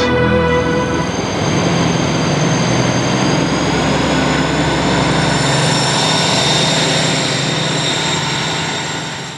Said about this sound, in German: Die Bahn kommt.